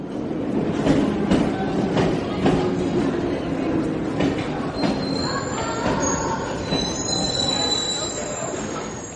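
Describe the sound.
Metro train in a station, a constant loud rumble of wheels on rails with a few sharp clicks early on. High, sustained wheel squeals rise over it in the later part.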